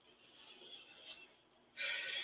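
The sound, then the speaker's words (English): A deep breath drawn in slowly and let out again, a soft airy hiss that swells gently, then a brighter rush of breath at the end, faint and alone. “But before we get started, let's all take a deep breath”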